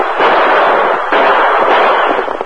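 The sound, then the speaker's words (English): Gunfire from guns in a shootout between riders and outlaws in a valley: a dense, loud, unbroken barrage of cracking shots fills the whole stretch with no pauses. “Use your guns.”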